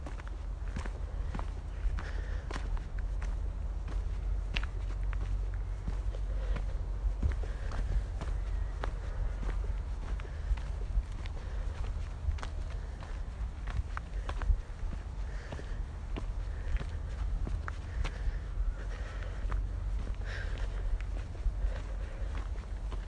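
Footsteps of a person walking, a long, steady run of many even, soft steps that keep a regular rhythm throughout, with no voices.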